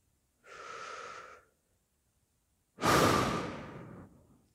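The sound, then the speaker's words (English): A slow, deep breath, alone and fairly faint: a soft, airy inhale of about a second, a pause, then a longer, louder, breathy exhale that tapers away. “Me? I'm going to take another breath.”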